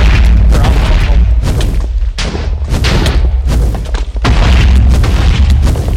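Explosive skulls fired by the Wither boss in the Minecraft video game: loud, deep booms and blasts that run together almost continuously, with many heavy impacts and hardly any quiet gaps.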